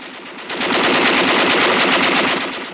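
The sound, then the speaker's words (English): Sustained machine-gun fire from a ship's gun tower, aimed at a boat: one dense, loud, continuous burst of rapid shots that runs the whole time, no voices. “They fire on the Dutch boat.”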